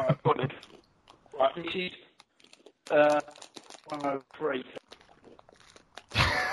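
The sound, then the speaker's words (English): Crisps being eaten, with crunchy bites and crinkling of the packet scattered between stretches of people talking. “Who's eating the crisps? Me.”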